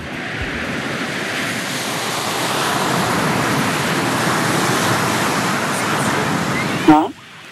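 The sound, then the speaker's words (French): Sea waves washing onto a beach, heard as the 'song of the seashell': a continuous, even rush of surf noise that holds steady throughout, then drops away sharply just before the end. “Patientez un tout petit peu, on vous met dans l'ambiance. Hein. La mer, la plage, les coquillages.”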